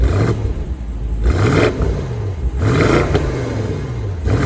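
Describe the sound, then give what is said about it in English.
A 2020 BMW M850i Gran Coupe's V8 engine revs in a loud, continuous throaty roar, its pitch swelling and easing back several times without any talk. “On a completely separate note, that V8 is pretty great.”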